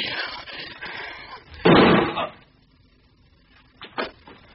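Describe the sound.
A single gunshot cracks out as one loud, broad burst that lasts a fraction of a second. Speech comes before it, and a few faint knocks follow in the quiet afterward.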